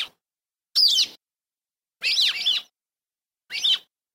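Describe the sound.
A rock sparrow sings three short, high-pitched chirpy phrases, each separated by a second or so of silence.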